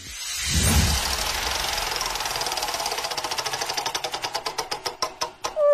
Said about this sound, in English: because on Thursday I'll be spinning the wheel a little something like this.